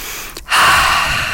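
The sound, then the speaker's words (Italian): A deep breath drawn in audibly: after a short dip, one strong, breathy inhale swells up and holds for most of a second, with no speech over it. “Avete fatto un respiro profondo? Facciamolo adesso.”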